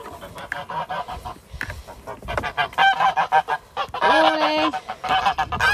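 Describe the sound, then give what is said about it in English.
Geese chatter in their shed with many overlapping honks and nasal calls. Some calls are short and clipped, others drawn out, and the honking grows busier and louder in the second half. “going out to the geese so you can hear a chattering away, so they can hear me coming.”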